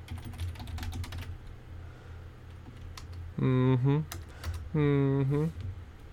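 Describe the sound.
Computer keyboard typing as a search is entered into DuckDuckGo: a quick burst of clicky keystrokes for about a second, later followed by two drawn-out voiced sounds.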